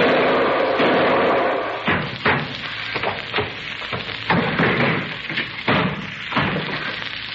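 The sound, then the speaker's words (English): A man who has been shot tumbles down a flight of stairs, producing a string of irregular heavy thuds and knocks of varying loudness that continue for several seconds. “Well, did I finish him, Singh? Assuredly. If your shot did not, that fall down the stairs has broken his useless neck.”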